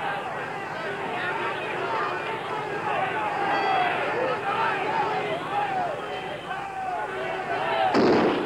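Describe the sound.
A single sharp gas-gun shot bursts out near the end, cutting through a steady din of crowd shouting during a street disturbance with arrests.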